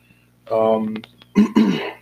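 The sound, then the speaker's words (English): A person hiccups mid-sentence: a longer voiced vocal sound followed by two sharp, abrupt bursts close together, fairly loud and alone with no talk over them. “excuse me, hiccups”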